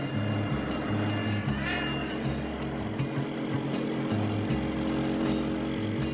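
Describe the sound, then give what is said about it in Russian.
A motorcycle engine drones steadily as the rider sets off, its low pitch shifting in steps throughout, with no voices. “подходит к мотоциклу. Едет за ними.”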